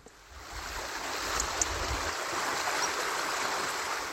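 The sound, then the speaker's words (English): Steady rushing of a forest stream in the uplands of Skiddaw Forest in the Lake District: a dense, even wash of water noise that swells slightly after the first half second and then holds constant throughout, with no voices. “That is the sound of Skiddaw Forest in the Lake District, where environmental campaigners have launched a bid to buy the highest nature reserve in the country.”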